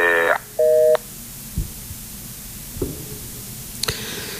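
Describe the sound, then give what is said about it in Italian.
Two short electronic telephone tone bursts as a phone call drops, loud and steady, followed by a few faint clicks over quiet line noise. “deve essere caduta la chiamata, adesso purtroppo stiamo un po' con questi problemi, adesso riproviamo a chiamare e speriamo di riuscirci.”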